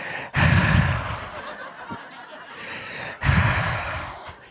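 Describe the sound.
A voice imitates someone gasping for breath with two long, rasping inhalations separated by a pause. Each gasp is loud and breathy and then tapers off.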